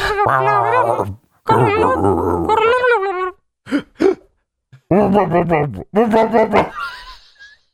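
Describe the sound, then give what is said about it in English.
Voices imitate growling, whimpering animal sounds in a series of voiced bursts: several long throaty stretches, two very short grunts, and a few more growls, with brief pauses between them. “Well, it's literally descended into weird animal sounds and growling.”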